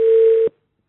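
An incoming telephone call marked by a single steady electronic tone lasting about half a second, cutting off abruptly into silence.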